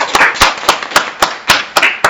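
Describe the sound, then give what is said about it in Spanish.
Applause from a studio audience during a radio program, heard as several sharp, evenly spaced claps in a regular rhythm. The claps are loud and clear, with no talk between them. “Felicitaciones, le damos un aplauso de la Fonoplatea a los compañeros.”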